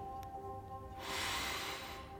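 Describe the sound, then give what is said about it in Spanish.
Deep inhalation by a yoga instructor before a leg stretch: one soft, airy rushing breath lasting about a second, set against a faint steady hum. “respiro un poco, mis ojos en los tuyos, antes de inhalar profundamente.”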